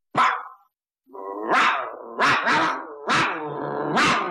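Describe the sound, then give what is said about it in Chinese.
A human voice imitates a dog barking, giving several loud, harsh barks in an uneven rhythm, some drawn out with a growling edge. “狗叫。”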